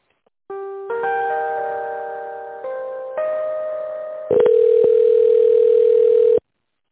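Telephone line tones during a call transfer to another department: a few sustained electronic tones step between different pitches, then a louder, buzzier steady tone holds for about two seconds before cutting off abruptly.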